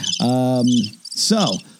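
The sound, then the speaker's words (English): Crickets chirping as a short sound effect: two quick bursts of bright, high chirping with a tonal buzz beneath, separated by a brief gap, loud and with no one talking. “Hi, crickets. Bye, crickets.”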